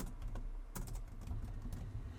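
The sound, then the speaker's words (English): Computer keyboard typing as a business name is entered into a domain search box. Many quick, light keystrokes tap in a steady, uneven patter with no voices. “So what I would suggest to do first, type in your business name. So in this case, house service company.”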